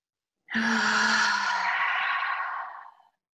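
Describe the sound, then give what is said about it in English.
A deep breath drawn in during a guided breathing exercise, one long airy inhalation of about two and a half seconds that starts strongly and slowly fades. “Inhale.”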